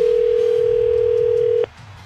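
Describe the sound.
A steady telephone dial tone holds one constant pitch for about a second and a half, then cuts off with a click as the line connects for a call-in, leaving only a faint low background.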